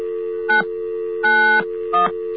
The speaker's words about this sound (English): Occasionally get a line where the touch tones just don't work. This is what the phone company does when you don't pay for your touch tone. They make the dial tone not work to your touch tone.